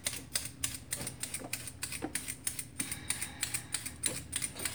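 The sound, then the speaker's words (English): Carrots are being peeled with a vegetable peeler, giving many quick, rhythmic scraping strokes in a steady, brisk pattern with no talking. “now I'm going to use my peeler and I'm going to peel some of these carrots down. Just take off the skin.”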